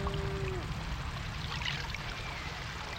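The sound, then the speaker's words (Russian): Water is splashed onto a cow by a man, giving a continuous pouring and trickling wash. The sound stays fairly even and soft throughout, with no voices. “Мужчина плещет воду на корову.”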